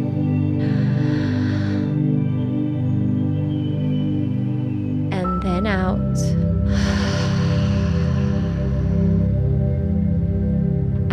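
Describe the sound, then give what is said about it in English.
Deep breathing during a guided beach-visualisation meditation: a couple of slow, airy breaths in and out, softly rising and falling over a steady, sustained low tonal drone. “bring your awareness back to your breath again taking a deep and grounding breath in”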